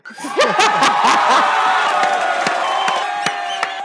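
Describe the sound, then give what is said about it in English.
A crowd cheers, whoops and laughs in an excited burst, with a few sharp claps scattered through the latter part as the noise stays loud and steady. “Can you give yourself a round of applause? That was awesome.”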